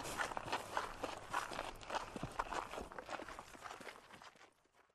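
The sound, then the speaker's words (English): Footsteps of people walking outdoors on a woodland route toward Torcross. Many quiet steps fall in a steady, even rhythm and fade away near the end. “So we're going to walk on to Tor Cross.”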